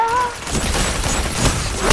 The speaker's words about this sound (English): And I accidentally just killed myself with a grenade.